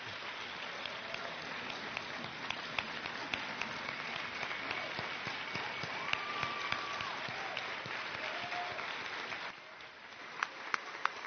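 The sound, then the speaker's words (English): A church audience gives a guest speaker a warm welcome with dense, sustained applause for about nine and a half seconds, which then thins out to a few scattered claps. “church, please help me put your hands together and give a warm Gwinnett welcome to Dr. Mark Wattenweller from Hope Worldwide.”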